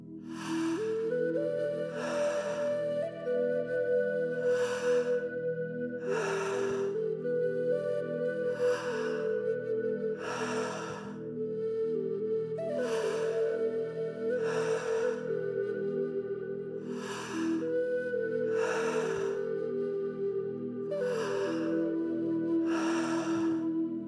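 Tummo breathing exercise: many forceful, rhythmic breaths at a regular pace of roughly one every two seconds, each a short, breathy burst over sustained soft tonal music.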